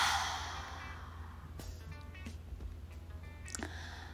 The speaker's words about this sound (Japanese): ラスト吸って、体の呼吸全部吐き切ります。